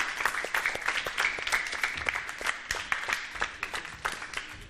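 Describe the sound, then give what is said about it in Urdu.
Scattered audience clapping for a contestant in a sherbet-tasting game show: many separate, crisp claps in an uneven rhythm, fairly faint, with no steady roar behind them. “ان کی حوصلہ افزائی کیجیے گا زوردار تالیوں کے ذریعے۔”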